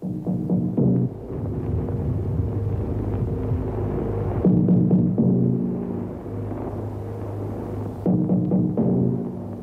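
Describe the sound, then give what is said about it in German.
Low, throbbing drum signal tapping out the Morse code letter V, the call that opened wartime German-language radio broadcasts, repeats in a few humming, rumbling phrases with no talk. “Dieses Trommelzeichen eröffnete stets die deutschsprachigen BBC-Sendungen. Es war das internationale Morsezeichen für den Buchstaben V, stellvertretend für das englische Wort Victory.”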